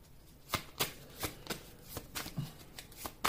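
Playing cards being shuffled and drawn: many crisp, sharp snaps at an irregular pace, fairly faint, with no voices.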